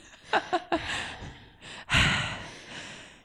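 A person takes a deep breath: a few short, sharp puffs of air, then one loud, full breathy inhale that swells and slowly trails off.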